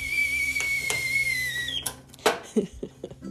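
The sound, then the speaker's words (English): A small red teapot whistles as coffee water comes to a boil. A steady, piercing whistle drifts slightly lower, then cuts off, followed by a few light metallic clinks and clatters. “Milo and I as we brew our coffee in our cute red little teapot.”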